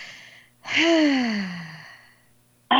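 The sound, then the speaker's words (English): A deep breath in and out taken during a guided healing meditation: a softer breath, then a long, loud sighing exhale with a voiced tone that slides downward in pitch and fades, with no talk over it. “And take a deep breath in and out.”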